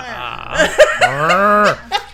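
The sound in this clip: A voice imitates an irritated cow mooing. A few short, gruff vocal bursts lead into a long grumbling moo that bends down in pitch at its end, followed by one more brief grunt.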